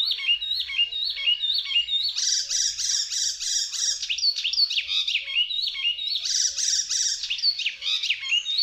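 Icterine warbler song pours out as a continuous stream of bright, high-pitched chirps and whistles. Short motifs repeat again and again in quick succession, loud and alone, with no voices.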